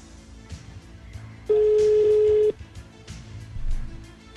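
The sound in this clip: A telephone tone while a call is being dialed: a single steady, mid-pitched beep lasting about a second rises clearly out of a low background and then stops abruptly, leaving faint murmuring sounds.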